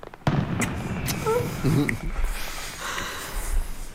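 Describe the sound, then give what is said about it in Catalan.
Fireworks burst in a few sharp cracks and bangs over a rough, crackling rumble, moderately loud throughout. “Has escoltat això? Sí. Són coets o és el meu cor? Són coets.”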